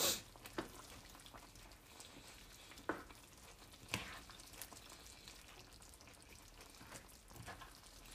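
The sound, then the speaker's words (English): Curry with thin, tomato-heavy liquid sizzles and simmers on a stovetop while being stirred, a steady faint bubbling hiss broken by a few soft knocks of the utensil against the pot. “But I have curry happening on the stovetop, which I actually need to stir.”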